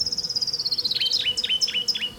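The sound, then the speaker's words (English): An orange-crowned warbler sings a high, thin trill that drifts slightly downward, then breaks into about five quick down-slurred notes over low, steady background noise. “Orange crown warbler in the background.”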